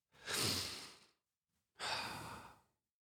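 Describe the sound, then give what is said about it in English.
A person takes a little breath: two soft, airy breath sounds, each lasting under a second, separated by a brief silent pause with no talk around them. “I'm going to take a little breath here.”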